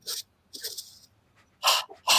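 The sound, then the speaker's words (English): Deep belly breaths during a guided breathing exercise: a few airy, hissing inhales and exhales arrive in separate bursts, the last two louder, with no talk. “just put your hand on your belly and do 10 breaths in your belly like this.”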